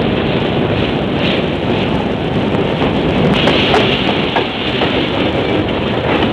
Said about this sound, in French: Et voici qu'apparaît... ...dans quelques instants. C'est un train qui doit assurer une liaison pendant l'été, une relation hebdomadaire plus exactement, entre le Maroc et la France, et vice-versa via l'Espagne.